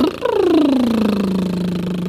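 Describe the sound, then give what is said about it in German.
A voice imitates a car engine with a buzzing lip trill that drops in pitch at the start, then settles into a steady low rumble for about two seconds, loud and alone. “Spieltöne heißt mundmotorische Übungen, wie zum Beispiel das Lippenflattern.”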